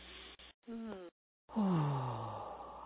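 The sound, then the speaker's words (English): A big deep breath during a guided relaxation exercise, released as a long voiced sigh that falls in pitch. Shorter breathy, voiced sounds come before it. “Then we always follow with a big deep breath.”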